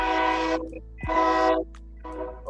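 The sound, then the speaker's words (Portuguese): Train horn sounding three blasts, each about half a second long with a rich, brassy chord; the first two are loud and the third is softer. “vamos ignorar a buzina do trem”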